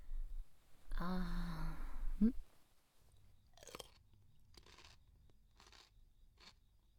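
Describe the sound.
Chewing and eating food, with a few soft, crunchy bites spaced out after a louder, denser stretch at the start, all fairly quiet.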